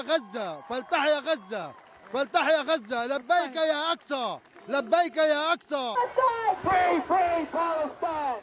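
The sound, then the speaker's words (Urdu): Protesters chant slogans at a pro-Palestine rally in Melbourne. Loud voices shout in rhythmic bursts, and the sound swells into a denser roar of many voices toward the end. “یہ نعرے، یہ آکروش، یہ پردرشن اور یہ آواز”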